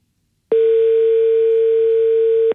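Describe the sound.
Telephone ringback tone on an outgoing call: one steady, mid-pitched electronic tone sounding alone for about two seconds, starting and stopping cleanly.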